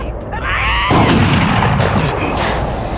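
A single loud shotgun blast cracks out sharply over a noisy background, then trails off into a rumbling, ringing decay.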